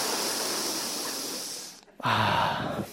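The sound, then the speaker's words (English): A speaker taking a breath during a talk on faith: a long, steady breathy hiss, a brief silence, then a shorter and louder intake of air. “Take a breath.”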